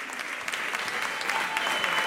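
A festival audience applauds the newly announced winner of a song contest, a thick, continuous crackle of many hands clapping that stays loud and even across the whole stretch.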